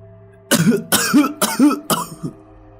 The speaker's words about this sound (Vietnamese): Một tiếng ho ở trong quan tài cất lên đột ngột